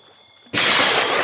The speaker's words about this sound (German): Dieser zog sich bis auf die Unterhose aus und ließ sich ins Wasser gleiten.